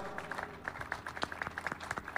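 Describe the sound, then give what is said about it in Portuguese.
Scattered hand claps from an audience applauding a folk music and singing group at an evening concert: a few crisp, uneven claps in an irregular rhythm at moderate loudness, with no voices. “E sobretudo, um forte aplauso também a este caloroso grupo que aqui está atrás de nós. Grupo de Músicas e Cantares da Várzea.”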